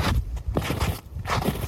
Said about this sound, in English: That is, in fact, the sound of somebody walking in snow.